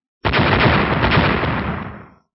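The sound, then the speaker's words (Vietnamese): A loud explosion in space bursts in suddenly as a single sustained, rumbling blast that holds for over a second and then fades out after about two seconds. “Liên tiếp những tiếng nổ ầm ầm truyền ra, trên tinh không vang lên những tiếng nổ cực lớn”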